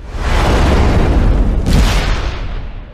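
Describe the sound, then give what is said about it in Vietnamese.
A loud explosion as a fireball suddenly bursts at the corner of a staircase: a broad, heavy roaring boom that fills the whole clip, surges again briefly midway, then slowly fades. “Ông ấy vừa nói đến đó, tôi đã nghe thấy một tiếng nổ. Một quả cầu lửa thình lình xuất hiện từ giữa hư không ở ngay góc rẽ của cầu thang tầng 1.”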